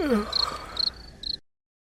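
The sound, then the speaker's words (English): Crickets chirp inside a video game museum: three short bursts of high, thin chirping, each cluster fading in and out, after a brief lower swooping sound at the start. “And who let the crickets out?”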